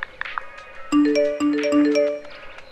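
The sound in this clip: Phone message notification chime, a few bright melodic tones in quick succession, clear and alone with no talk.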